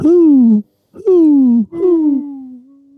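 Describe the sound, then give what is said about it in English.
A voice imitates owl hoots the way a student section chants at a Florida Atlantic University basketball game: three drawn-out, descending "hoo" calls with short gaps, the last one held long and level. “You're shooting free throws in the owl's nest. That's probably what they call their gym. And the student section just starts going, hoo,”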